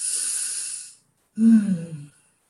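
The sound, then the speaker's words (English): A deep breath taken together during a group prayer on a community call. A long, airy hiss is followed after a short pause by a lower, rougher breathy exhale with a sigh-like quality, with no speech. “hands on our heart. We'll take a deep breath.”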